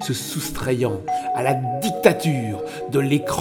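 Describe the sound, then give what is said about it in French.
A telephone rings with a steady chime-like tone beneath a man speaking French over soft music. “Là, c'est le téléphone.”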